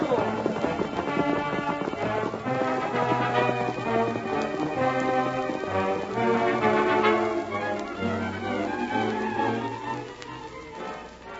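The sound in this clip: Horses galloping off as riders set out, a continuous rapid drumming of hooves that holds steady, then begins to fade near the end, with voices over it.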